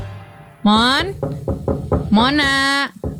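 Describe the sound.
Someone knocks on a door several times in quick succession between two drawn-out, rising calls from a voice.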